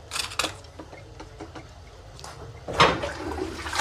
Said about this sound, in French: Arrête avec cette chasse, merde. Mais c'est pour faire une diversion.